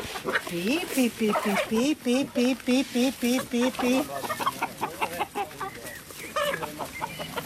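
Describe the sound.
Free-range hens roaming outdoors, not enclosed, cluck in rapid rhythmic bursts of short, pitched calls, with more scattered clucking following.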